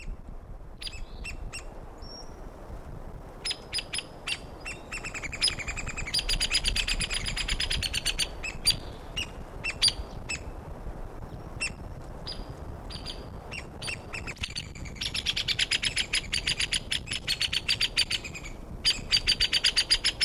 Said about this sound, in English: Hey, woodpecker number one recorded near probable nest site. Males giving the loud notes, female nearby giving the low pitched notes.